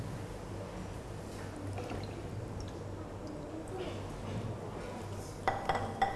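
Dishes, bowls and spoons being washed in a basin: a steady wash of splashing water runs throughout, with a few sharp clinks of crockery and cutlery near the end.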